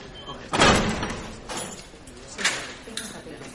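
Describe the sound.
Two police officers open a jail cell door: a loud heavy clank and slide at the start, then a few quieter knocks and rattles of the metal door.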